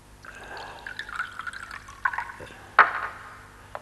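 A drink poured into a glass for a toast, a soft liquid trickle followed by two sharp glassy clinks near the end, quiet overall.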